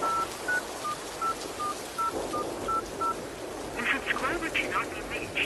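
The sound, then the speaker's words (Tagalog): Telephone keypad tones dial a number to call someone, with about nine quick, faint beeps in an even rhythm over a hissy background, followed by a short burst of rougher noise. “Sandali lang po at susubukan kong tawagan si tatay.”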